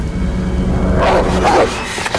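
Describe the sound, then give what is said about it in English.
A black dog with flattened ears, emerging from shrubbery by a playground, gives a few short, sharp barking and yelping sounds over a loud, steady rumbling background. “A black dog emerges from the shrubbery, its yellow eyes glowing. It flattens its ears.”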